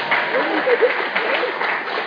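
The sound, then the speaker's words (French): Applause from a church audience after a Bible reading: a continuous patter of clapping with voices mixed in, steady and moderately loud for about two seconds, with a muffled, dull tone. “On peut les applaudir.”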